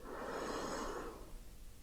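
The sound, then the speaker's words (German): One deep, quiet breath drawn in through the nose, a soft airy rush that swells and then fades away toward the end. “Atme tief ein”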